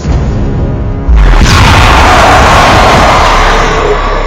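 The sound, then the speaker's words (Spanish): A single loud explosion bursts out at a sinister dark mansion, throwing back men dressed in black; the heavy boom hits about a second in, then a dense, roaring rumble holds at full strength until the end. “Hay una explosión y salen despedidos.”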